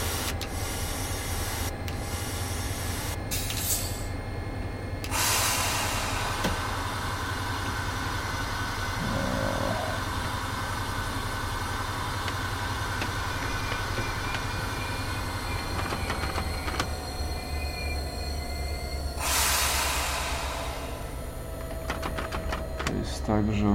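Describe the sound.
A train brakes with a steady rolling rumble and a long, sustained high squeal. Bursts of hissing come and go, and people talk over the noise.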